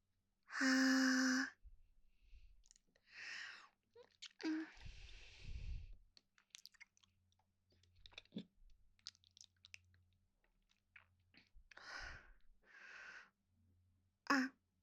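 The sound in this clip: Someone eats a cold cream dessert with soft chewing, biting and wet mouth sounds in scattered bursts, faint and close, after an opening hummed vocal sound.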